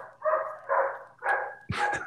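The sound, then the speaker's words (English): Dogs bark in four loud, separate bursts, evenly spaced and rising to a sharper final bark, during a police apprehension operation. “Dogs are going off.”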